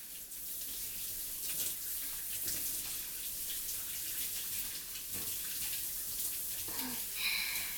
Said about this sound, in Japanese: では一度お湯で流しますよ。